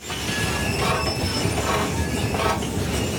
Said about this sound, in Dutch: Het enige wat hier vandaag nog doorrolt, dat zijn de roltrappen. Roltrappen met niemand erop, want het station is nagenoeg uitgestorven vanwege de staking.